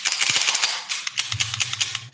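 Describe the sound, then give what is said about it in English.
Sharp metallic clicks and rattles of a CZ-P01 compact pistol being unloaded and cleared, many quick mechanical snaps in an irregular run, with a low steady hum entering partway through. “I'm pulling the weapon out. It's a CZ-P01 compact. I'm going to go ahead, unload it. And then just make sure that it's clear.”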